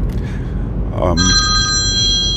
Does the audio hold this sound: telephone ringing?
yes